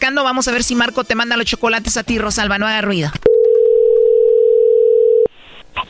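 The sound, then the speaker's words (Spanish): A steady single-pitched telephone tone on a phone call, heard after a stretch of people talking; the unbroken tone holds for about two seconds and then cuts off abruptly. “Bueno, ahí se está marcando.”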